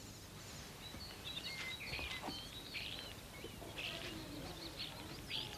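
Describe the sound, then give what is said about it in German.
Starlings chirp in a garden with a scatter of quick, high twittering calls. The calls stay faint against a steady hiss of background noise throughout. “Die Stare zwitschern.”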